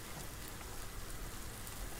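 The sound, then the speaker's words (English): Rain falling on a wet day, a faint, even hiss of countless drops that stays steady from start to end with no voices. “It's really rainy out, so I was just thinking that we could chill.”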